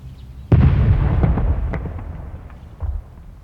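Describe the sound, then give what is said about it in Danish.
A cannon salute shot fired with military help for the July festival: one loud, sudden boom with a long rumbling decay, then a weaker thud near the end. “De der kanonslag, jeg synes ikke, de behøver at komme så tidligt på dagen.”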